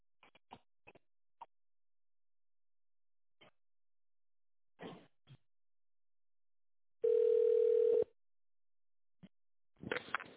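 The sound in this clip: Telephone line tone while a call is being connected: one loud, steady tone lasts about a second, with scattered soft clicks before it and a short burst of noise after it.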